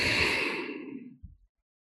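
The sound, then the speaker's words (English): A deep breath let out in a long, soft, airy exhale that fades away, ending with a short faint puff, with no talking. “Take a nice deep breath in and exhale.”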